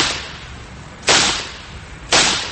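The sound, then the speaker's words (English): Two sharp gunshots ring out about a second apart during a shooting. Each is a loud, sudden bang followed by a decaying tail, with no voices between them. “Oh, no. He shot him.”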